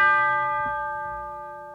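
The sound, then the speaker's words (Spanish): A single bell toll added to the intro of a heavy metal song: one struck strike with rich, sustained metallic overtones that ring on and slowly fade, heard alone. “Fueron los productores del disco quienes añadieron las campanas y los truenos iniciales para acentuar el ambiente terrorífico.”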